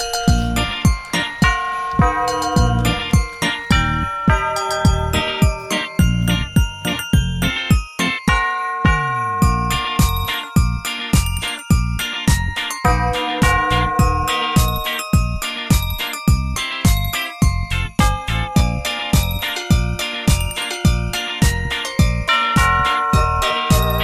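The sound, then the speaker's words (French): Christmas-style jingle bells shake and tinkle brightly through a steady rhythmic musical backing, with regular beats and bright, ringing tones from start to finish. “vous avez entendu, c'est les cloches du Père Noël”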